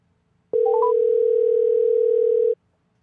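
A telephone line tone during an outgoing call: a few quick rising beeps lead into a single loud, steady, unbroken tone that holds for about two seconds and then cuts off.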